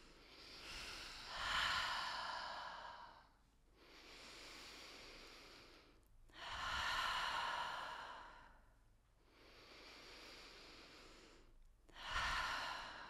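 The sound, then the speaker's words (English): Deep, slow breaths drawn in through the nose and out through the mouth, about five long airy breath sounds alternating stronger and softer, separated by short pauses, quiet and alone without talk. “Take a few deep breaths in through the nose and out through the mouth.”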